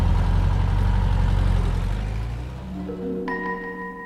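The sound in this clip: A car engine rumbles low and heavy as the car drives off. The rumble holds steady at first, then fades and thins after about two seconds.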